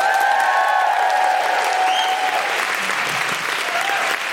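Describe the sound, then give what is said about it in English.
Audience applause and cheering for a comedian at a live stand-up comedy show: steady, loud clapping with whoops that continues without a break and eases slightly at the end. “please put your hands together and make general woohooing noises for Sindhu V.”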